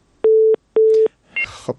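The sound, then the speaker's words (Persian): A telephone busy tone sounds after a disconnected call: two identical, steady mid-pitched beeps of equal length separated by a short gap, followed by brief faint crackling noise. “تماس قطع شد، تماسی برادر ما قطع شد”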